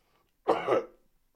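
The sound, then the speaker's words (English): A single harsh cough bursts out from a person in a room with poor air, brief and fairly loud against near silence. “I was going to accuse someone of putting a curse on me, but then I remember the air quality in this room sucks. It is not the first time I have a coughing fit in here.”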